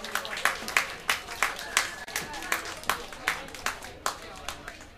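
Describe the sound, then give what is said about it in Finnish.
Applause from an audience at a bar club night, heard as many sharp claps falling in a steady, evenly spaced rhythm, each one ringing out briefly before the next. “Annetaanpa aplodeja.”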